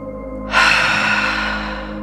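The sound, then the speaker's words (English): A deep, long exhale taken during a guided breathing exercise: a soft, breathy rush begins abruptly and trails off slowly over more than a second and a half, heard over a steady low drone. “release a nice, deep, long exhale”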